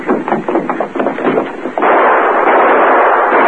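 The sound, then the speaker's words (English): Gunshots fired at fleeing outlaws after a safe robbery in a Western scene: a rapid, loud volley of many cracking shots, then a continuous roar of dense noise. “Who are you shooting at? Well, a couple of outlaws stole the cash from the safe.”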